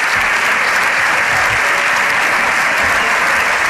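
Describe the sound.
Deputies in the Spanish Congress of Deputies applauding Prime Minister Sánchez as he arrives, a steady, loud and dense ovation from his party's benches that continues without a break.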